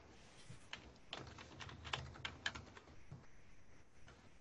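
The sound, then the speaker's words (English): Typing on a computer keyboard while someone enters a name to log in: a few faint, irregular, clicky keystrokes, with no talk over them. “I can't type to save my life.”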